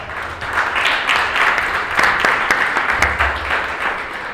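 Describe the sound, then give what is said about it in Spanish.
Audience applause at a Spanish-language education conference, a dense, steady patter of many hands clapping for about four and a half seconds with no talking over it. “pido también un aplauso para ellos”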